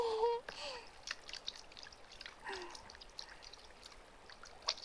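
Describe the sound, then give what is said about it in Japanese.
Laundry being rinsed by hand in fresh water to wash out soap suds produces scattered splashes, trickles and drips, soft and irregular, with a few sharper splashes among quieter sloshing. “そしたら今度は、こぎゃんして新しく水でゆすいで、ゆすいで、”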